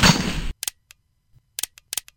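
Gunfire: after a brief burst of broad noise, a scatter of sharp, loud shots cracks out in irregular clusters, several coming in quick doubles, with silence between them.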